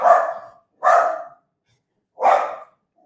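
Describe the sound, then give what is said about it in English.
A guard dog barks three times, each bark loud and sharp with a quick fade, spaced evenly and separated by silence. “guard dog.”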